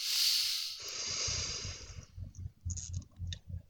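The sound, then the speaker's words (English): A deep breath drawn in during a guided breathing exercise, heard as a long, soft airy hiss that fades over about two seconds, followed by a few faint low thumps and clicks. “close your eyes if possible, and go ahead and take a deep breath in.”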